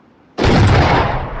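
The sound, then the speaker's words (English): A sniper rifle fires once in a video game. The loud shot starts abruptly after a quiet moment and leaves a long, roaring tail that slowly fades. “Oh, it's a sniper. Okay. Gun.”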